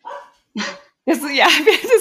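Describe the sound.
A small dog barks at a delivery person at the door, letting out a few sharp, high-pitched barks in short separate bursts followed by a longer, busier stretch of yapping.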